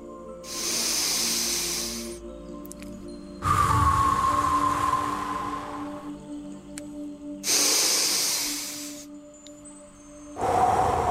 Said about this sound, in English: let's try this for 5 breaths, just like this.